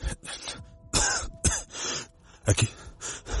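Harsh coughing from a man getting up from the floor while gathering his clothes, heard as a few rough, breathy bursts of uneven rhythm, moderately loud and with no speech over them.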